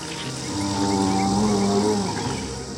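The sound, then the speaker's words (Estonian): Foghorn wailing in a long, sustained, low, harmonic tone that swells and holds steady for more than two seconds before fading slightly, with no voices. “Udusireen huilatas.”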